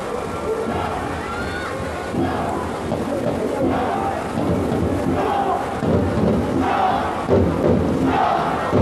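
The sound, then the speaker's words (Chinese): Football fans in a stadium cheering for their home team, a dense crowd roar that holds steady and then swells louder toward the end. “现场的球迷啊，一直在为自己的主队去加油助威。”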